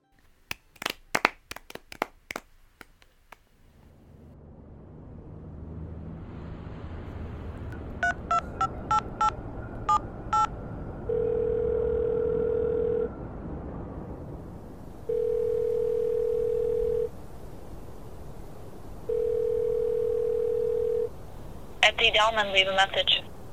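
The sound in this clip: An outgoing phone call: a few clicks, then a quick run of touch-tone keypad beeps, followed by three long, steady ringing tones separated by pauses over a low hum. A short burst of sound closes the call.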